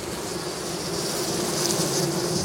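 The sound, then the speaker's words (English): Honey bees buzz inside an opened, smoked hive, a steady, even drone of many wings with no other sounds. “So I opened up the top and you can see that there's bees here.”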